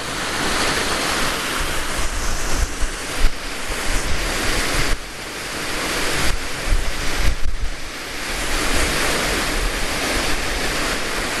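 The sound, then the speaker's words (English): Strong wind on a hilltop buffeting the microphone, a loud continuous roaring rush with gusty surges and a few brief dips, no voices. “I'm heading down into the valley now, so the wind should be a bit less ridiculous than it is up here.”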